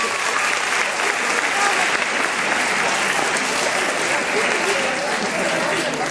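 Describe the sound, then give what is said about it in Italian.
Sustained audience applause in a lecture, rewarding a student's question: dense, steady clapping that stays loud and even for the whole stretch with no break. “Sì, fategli un applauso perché”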